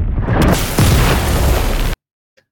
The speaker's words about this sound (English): The church explodes and the episode ends.